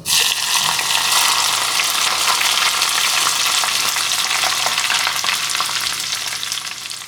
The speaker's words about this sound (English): The sound of making chili oil is also very relaxing. After you put hot oil on the chili, you get this sound.